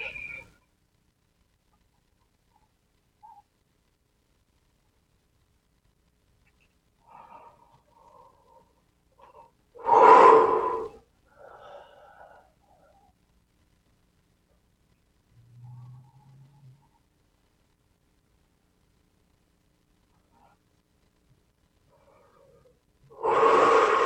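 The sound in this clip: Deep breathing during a guided meditation: two loud, full breaths stand out, one near the middle and one at the very end. Long stretches of near-silence separate them, broken only by faint, soft little sounds.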